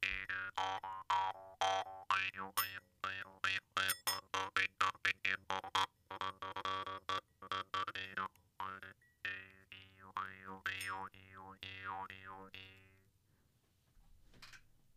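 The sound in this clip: Jew's harp played with its tongue pushed both forward and backward for a faster rate: a long run of many rapid twangs over a steady buzzing drone, later shifting into slower wah-like vowel sweeps before fading out.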